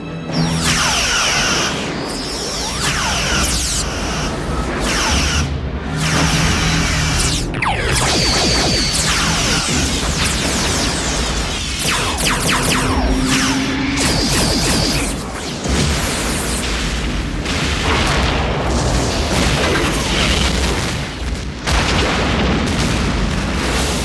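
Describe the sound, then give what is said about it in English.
Weapons fire and explosions ring out as a starship fleet opens fire. Loud booms and blasts pile up in a dense, continuous barrage, with deep rumbling beneath and occasional sweeping, whining tones. “Trust me, Data. The fleet's responded, sir. They're standing by. Fire.”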